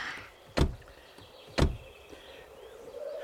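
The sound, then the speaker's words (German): A heavy car door makes two solid, low thuds about a second apart. They stand out clearly against a quiet background, with no voices. “Danke, dass Sie mir diese schwere Autotür aufhalten.”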